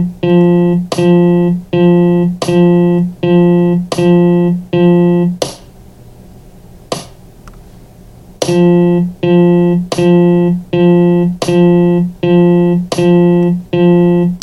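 A rhythm played as even eighth notes uses a pitched, sustained tone repeated at a steady pace. The run pauses briefly with one faint isolated note, then the same steady notes resume.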